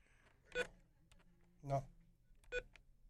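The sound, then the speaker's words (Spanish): Telephone line tones of an incoming call: a few short electronic beeps spaced about a second apart, faint and separated by low hiss. “Creo que aquí tengo otra llamada, a ver si entra.”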